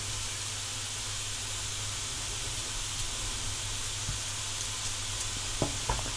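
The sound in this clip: Onion frying in a pan gives a steady, even sizzle and hiss throughout, with a few light knocks near the end and no voices.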